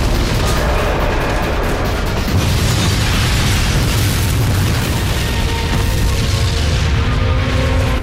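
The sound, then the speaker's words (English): A parcel bomb explodes and engulfs a station in flame: a loud, continuous roaring blast with heavy low rumble that stays intense and unbroken for about eight seconds. “The parcel explodes and the entire station erupts in a ball of flame.”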